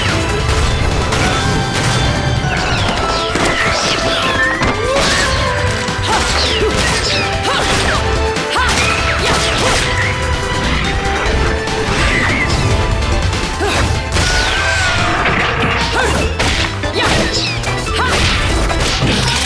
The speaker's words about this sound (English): They charge in, and then as a cutscene, we just start murdering angels. I think there's 3 or 4 of them, and they're all getting very shot in the face, you know?